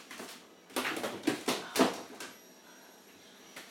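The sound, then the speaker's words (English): A cupboard is opened and closed while a lid is put away, giving several quick wooden clunks and light clatters in a cluster, then a quiet pause before one last sharp knock. “I'll put this lid in the cupboard because I don't know.”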